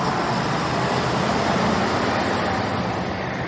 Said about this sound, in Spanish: Un autobús circula por una calle.